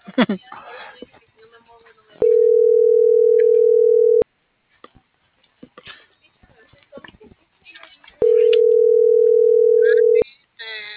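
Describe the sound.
Ringback tone of a telephone call that goes unanswered: two long, steady, mid-pitched tones, each lasting about two seconds, with quiet talk from people in the gaps before, between and after them.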